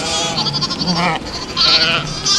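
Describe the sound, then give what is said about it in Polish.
Goats and sheep bleat in a farm pen on a rural ranch with tame animals, wavering, nasal calls overlapping almost continuously with no pauses. “Zapraszam do zagrody pełnej mięciutkich owiec, ruchliwych kóz i pary sprytnych strusi.”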